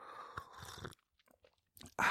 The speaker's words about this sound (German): Fast vergessen, einen Schluck zu nehmen.